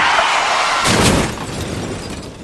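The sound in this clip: A crash as an out-of-control car smashes through iron railings into a stairwell in Kocaeli: a harsh, loud roar of noise with a sharp shattering burst in the middle, then rough rattling that eases off slightly.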